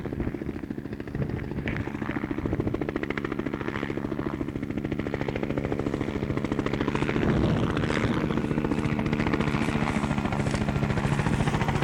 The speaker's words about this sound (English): Down the runway, there's a Cobra coming. I'll keep the recorder on. I want to get a picture of him head on.